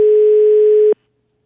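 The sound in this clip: A telephone tone after a caller hangs up: one steady, loud, mid-pitched beep lasting just under a second, heard alone and ending abruptly in silence.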